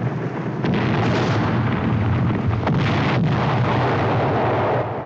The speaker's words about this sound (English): The mortar fire comes thick and fast, with fireballs lighting up the night sky and clouds of smoke.